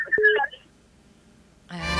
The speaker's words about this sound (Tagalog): Ayan, talagang hindi humihinto yung tut-tut-tut, no? Dahil sunod-sunod yung ating mga tawa.